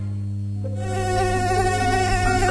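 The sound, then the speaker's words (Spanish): A mosquito buzzes with a thin, high whine over a low, steady hum. The whine swells in within the first second and holds to the end. “El mosquito no se toma vacaciones.”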